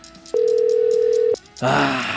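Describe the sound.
An unanswered telephone call ringing: one steady, even ringback tone lasts about a second, goes quiet, and then a voice starts talking.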